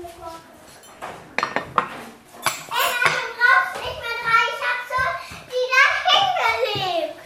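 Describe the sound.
Dishes and cutlery clink as two girls set the table for a family supper at home. Brief clatters and knocks come in a few bursts while children's voices chatter loudly over and around them.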